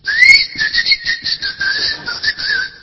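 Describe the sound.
A person whistles to trigger a whistle-activated key finder, producing a rapid series of short, high, warbling whistle notes that are loud and fluttering throughout.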